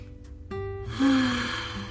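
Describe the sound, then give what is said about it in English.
A deep breath drawn in and let out during a calming heart-focused relaxation exercise: a soft, airy rush that swells through the second half, over sustained gentle music tones. “Place your hand over your heart and take a deep breath and breathe.”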